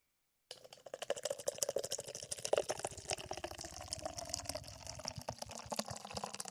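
A freshly opened beer is poured out with a quiet, fizzy glugging that keeps a steady rapid gurgle for about six seconds.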